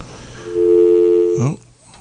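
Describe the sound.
A telephone rings for an incoming caller on a live radio call-in show: one steady, buzzy electronic tone held for about a second, then cut off by a short burst of voice.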